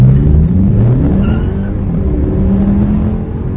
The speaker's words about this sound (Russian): Вот, давайте послушаем. Ничего специального исполнять не буду, просто старт со светофора.